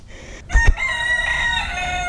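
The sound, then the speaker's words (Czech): Chickens calling beside a hillside path next to an old cemetery. A short low thump comes first, then one loud, long, drawn-out harmonic call like a crow, heard alone without talk. “Tady mě zdraví slepičky.”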